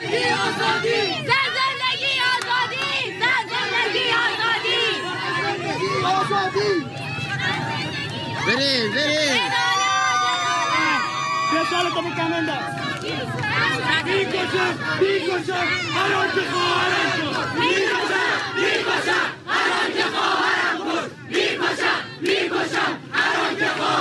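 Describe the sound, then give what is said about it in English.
Crowd at a street protest during an uprising in Iran chants and shouts, a loud, massed roar of voices that stays near full strength for about 24 seconds, with rhythmic cries rising out of the general din. “All right, so that's some of the voices from the streets of Iran right now, the uprising.”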